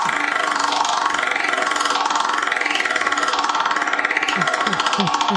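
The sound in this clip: Rapid, even clicking rattle of a game wheel being spun to pick a party game, continuing steadily at a fairly loud level throughout.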